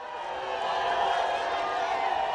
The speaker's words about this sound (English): That's the sound of domestic and hotel housekeeping workers taunting the accused Kahn when he arrived at the courthouse earlier this year.